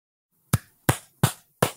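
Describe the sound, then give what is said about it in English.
Four sharp hand claps in a steady, evenly spaced rhythm, each crisp and bright with a quick decay, standing alone against silence. “That's me clapping.”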